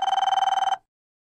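A telephone rings while a call is placed to a flooring company. One short burst of rapid, bright trilling rings for under a second, then cuts to silence.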